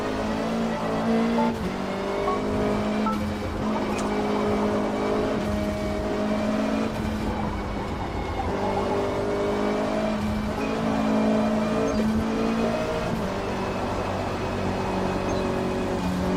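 Race car engine in a racing video game: a continuous, even engine drone with a whining harmonic tone that holds steady throughout, with no voices.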